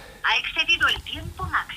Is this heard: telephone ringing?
yes